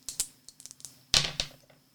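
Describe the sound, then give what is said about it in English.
Dice being rolled for a tabletop game turn: a run of light, sharp clicks and clatters, then a louder rattling burst and one more knock before it fades, with no talk over it. “So we'd probably roll two dice? Two dice? Yeah, it would be two dice. Let me get one first.”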